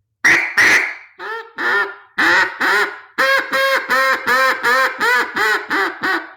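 Duck call from Makers Call Company blown after adjustment to thin the note and cut its gravelly rattle, giving a long series of loud, nasal quacks, a few spaced ones first, then a steady, evenly paced run.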